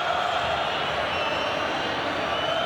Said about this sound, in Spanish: Bueno, explotó el público del rojo. Explota el público del rojo.